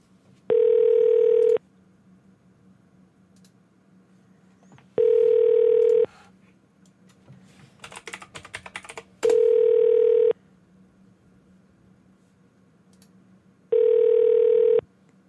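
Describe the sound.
Telephone ringback tone during a call transfer at an In Town Suites extended-stay hotel in Forest Park, Atlanta, Georgia. Four evenly spaced, steady mid-pitched rings sound over a faint line hiss, with a short crackly burst between the second and third.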